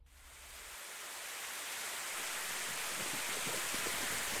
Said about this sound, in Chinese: 大清早就下雨，满世界淅淅沥沥的